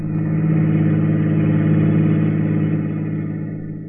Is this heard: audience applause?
no

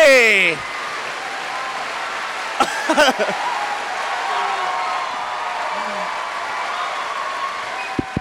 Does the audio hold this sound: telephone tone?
no

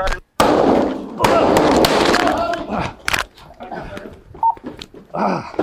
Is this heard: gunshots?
yes

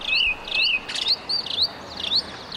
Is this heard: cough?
no

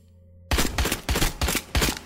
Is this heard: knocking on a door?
no

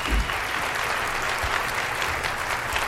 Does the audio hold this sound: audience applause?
yes

